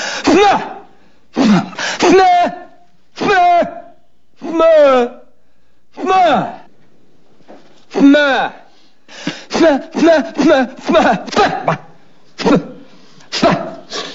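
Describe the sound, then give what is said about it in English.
A man forcing pressure into his head to clear his ears makes many strained, throaty grunts and pushes. The bursts come in short, uneven spurts with brief pauses between them, and no other sound is heard. “I'm trying to clear up my ears. You create a pressure inside your head. It opens up the eustachian tube.”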